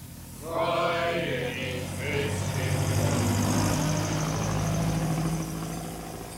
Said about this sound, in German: Ein vorüberfahrender Lastwagen machte den Rest unhörbar.